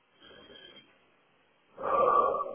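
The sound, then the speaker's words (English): A deep breath: after a faint, airy breathy sound and near-silence, a louder rushing intake of air fills the final second and swells to its peak. “Close your eyes if you can. Take a deep breath.”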